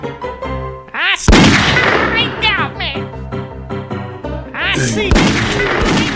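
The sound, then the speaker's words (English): Gunfire in a shooting video game: two loud, sharp blasts stand out against steady tonal game sound, with smaller bursts around them. “He got me. Oh, he shot me.”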